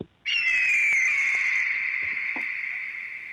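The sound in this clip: An eagle call rings out as one long, sustained high-pitched cry that starts abruptly, sags slightly in pitch, and holds loud and steady for about three seconds before easing off a little.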